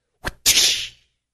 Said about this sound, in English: He took some cords and he made a whip. You know what a whip is?